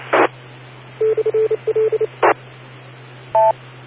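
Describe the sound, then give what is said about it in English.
Repeater identification tones carried over a radio link: a quick string of short, steady beeps at one pitch, set between bursts of static hiss, then a brief higher two-tone beep near the end. “Sounds like maybe one of your repeaters there ID'd, and that comes across the RLP, which is a bit weird”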